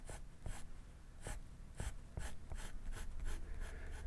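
A pencil scratches across paper as a drawing is sketched, giving many short, dry strokes in an uneven rhythm. The sound is very faint and no one speaks.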